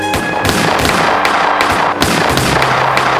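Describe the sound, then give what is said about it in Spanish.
Gunfire erupts in a film shootout on a theater's steps after an opera performance: several sharp, loud shots crack at irregular intervals over a dense, noisy background. “tras la actuación de su hijo en la ópera, salen por las escalinatas del teatro y estalla la balacera.”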